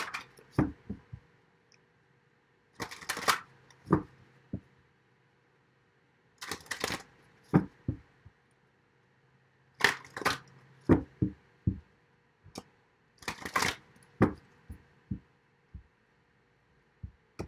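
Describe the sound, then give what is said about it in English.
Shuffling of a deck of life purpose cards: several short bursts of dense papery riffling, each followed by a string of crisp single taps and snaps as cards are squared and set down. It is fairly quiet, with no talk. “Let's get some life purpose cards for you.”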